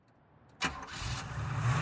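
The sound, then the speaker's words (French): A Triumph car's engine starts in a hospital car park at night: a sharp cranking burst catches into a steady running engine that grows slightly louder and rougher. “Au milieu de la nuit, elle quitta le parking de l'hôpital au volant de sa Triumph, rentrant chez elle à vive allure par les rues désertes.”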